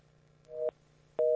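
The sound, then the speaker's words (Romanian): A telephone busy tone sounds after a caller disconnects: two short, evenly pitched beeps separated by a brief gap, the second cut off at the end, over faint line hiss. “A deconectat un telefon, încercăm cealaltă linie.”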